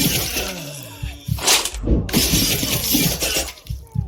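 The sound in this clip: A shield strikes an enemy in a combat video game tutorial: a loud shattering crash within a dense run of clattering, metallic impact effects.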